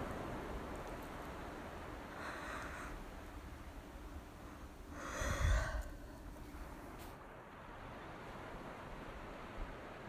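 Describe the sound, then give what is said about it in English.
Big exhale, a faint breathy whoosh rising into one fuller, airy release of breath midway, preceded by a softer breath, all very quiet against a low hiss. “So yeah, big exhale, clear the fog”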